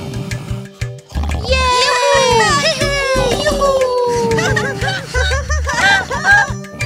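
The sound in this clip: Children make noise inside a farmer's house: many shrill, overlapping young voices squeal and chatter with gliding pitch, loud and nearly continuous, over a steady low tone.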